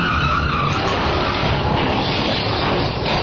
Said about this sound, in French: Et merde, t'as vu ce carambolage? C'est le troisième aujourd'hui.